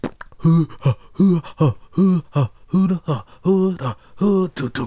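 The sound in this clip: A voice imitates the rhythmic breathing breakdown of a funk song with a quick run of short, voiced, breathy huffs in a steady pulse, each burst punchy and evenly spaced, performed alone without other sound.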